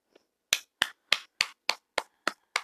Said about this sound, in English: I'm clapping for you, my friend.